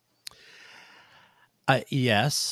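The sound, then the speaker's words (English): An audible inhale from a speaker: a small click, then a soft, breathy intake lasting just over a second before he starts talking. “I don't know if you heard me inhale there.”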